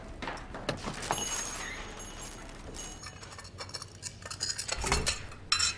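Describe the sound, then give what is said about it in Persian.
Dishes are smashed in anger, with sharp clattering crashes of crockery and scraping bursts scattered throughout and a loud impact near the end. “همه ظرفا رو میشکونه. ظرفا رو میشکونه برای چی؟ این عوارض تر که بهش نمیسازه میزن میشکونه.”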